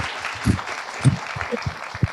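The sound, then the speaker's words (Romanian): Audience applause at an event for entrepreneurs, a moderate, steady patter of clapping with a few louder thumps scattered through it. “Iată și primele aplauze.”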